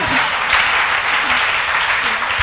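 A church audience applauds during a service, a steady dense clatter of many hands that holds at an even level throughout with no pause.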